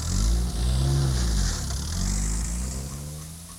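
A car drives away with its engine revving in a low, droning tone with strong harmonics, loud at first and then slowly easing off.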